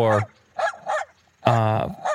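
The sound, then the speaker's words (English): A small Jack Russell terrier barks a few sharp, high yaps in short bursts separated by brief pauses. The last two barks are the loudest. “Athletic, those little Jack Russells. Yeah, they're quite small, eh? At least this one.”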